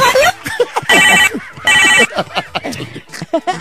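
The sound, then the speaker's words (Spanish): A telephone rings with a harsh, buzzy tone in two loud bursts, with voices talking before and after the rings. “Híjole, qué feo timbre el teléfono, ¿verdad? Yo no sé por qué suena así.”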